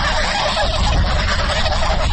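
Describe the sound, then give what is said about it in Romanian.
A flock of geese honks as it crosses a village centre, many overlapping calls forming a dense, continuous clamour at steady loudness, with no talk. “Un cârd de gâște traversează alene centrul satului, forțându-l pe un automobilist grăbit să încetinească.”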